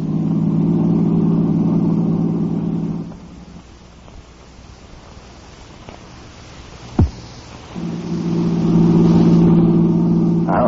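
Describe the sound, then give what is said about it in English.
A car engine accelerates as the driver speeds up: a loud droning hum drops to a quieter rumble, a brief sharp sound cuts through, then the engine returns to a loud, steady drone. “Now drive faster. I said faster.”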